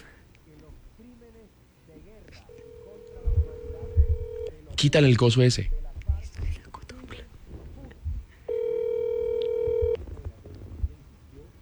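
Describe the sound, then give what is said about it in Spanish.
Phone call tones: a steady electronic tone sounds for about two seconds, a short burst of speech follows, then a second steady tone of similar length marks the rejected call. “Me rechazó la llamada.”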